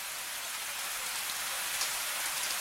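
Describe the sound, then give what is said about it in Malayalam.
Heavy monsoon rain falls steadily. It makes a dense, even hiss of countless drops with no pauses and no voices. “നമുക്കെന്തോരം മഴയല്ലേ അമ്മേ.”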